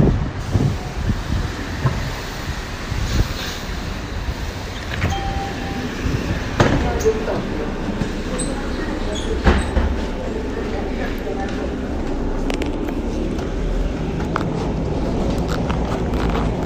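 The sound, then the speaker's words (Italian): A city bus arriving at the stop gives a low rumbling engine drone over steady street noise, with a few sharp knocks and clanks and background voices. “Oh, c'è già qua l'autobus. Allora ho fatto proprio, l'ho messa alla rovescia, vabbè, ormai devo salire sull'autobus.”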